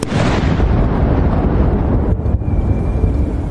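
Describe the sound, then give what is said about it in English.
A ceremonial gun salute fired from World War I guns in Hyde Park: a heavy boom at the start, followed by a long, loud rolling rumble that fades only slightly. “And in Hyde Park, a 96-round gun salute fired from World War I guns marked each year of her life.”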